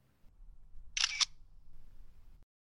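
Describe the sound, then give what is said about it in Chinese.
A camera shutter fires once to take a photo, a short crisp click standing out against a faint low background hum. “接下来，请您拍照留念。”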